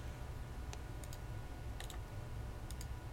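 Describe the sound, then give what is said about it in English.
Soft computer mouse clicks while editing a task sequence on a virtual machine, a few faint, crisp ticks, several falling in quick pairs, over a low steady hum. “And we click on Edit.”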